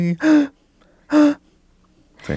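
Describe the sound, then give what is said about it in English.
A singer takes audible, voiced breaths, intoning while inhaling: two short breathy gasps separated by a pause, with a third starting at the end. “if you could tell where I took a breath, there it is, right?”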